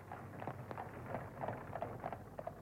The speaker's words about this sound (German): Ach, sicher Camusot mit meinem neuen Wagen. Coralie, das ist wirklich der schönste Wagen von Paris.